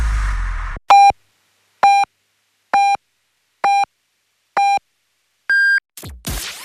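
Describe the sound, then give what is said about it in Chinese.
Radio hourly time signal for Beijing time: five identical electronic pips about a second apart, then a sixth, higher-pitched pip. Other programme sound briefly precedes and follows the sequence. “现在是北京时间2点。”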